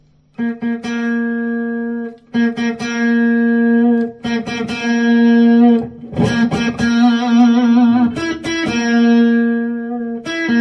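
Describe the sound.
Electric guitar played with the volume knob turned up from its lowest setting, picked notes ringing out in several phrases separated by brief gaps, the tone growing denser and more driven and distorted in the middle.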